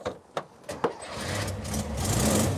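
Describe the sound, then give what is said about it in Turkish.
A Volkswagen car engine in an old car with a cracked dashboard runs faintly. A few sharp clicks come first, then a low, steady rumble builds and holds. “Sesi iyi değil mi? Tam bir Volkswagen gibi, çok güzel. O kaplumbağa sesi bunda da var.”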